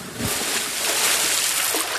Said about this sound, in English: and fell into the river. Splash!